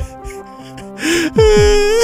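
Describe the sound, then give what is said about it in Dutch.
Loud, exaggerated crying and wailing: gasping sobs lead into sustained, high, wavering wails with sliding pitch. “Wat loop je nou te huilen, man?”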